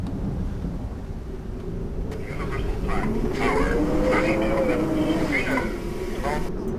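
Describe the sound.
Rolling thunder from a storm below an aircraft flying at 3,800 metres: a deep, continuous rumbling roar that swells partway through, with a voice speaking over it.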